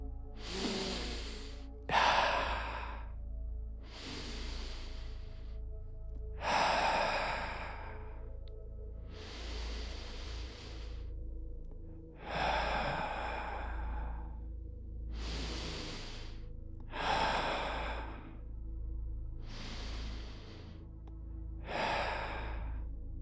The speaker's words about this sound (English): Let's take five deep breaths together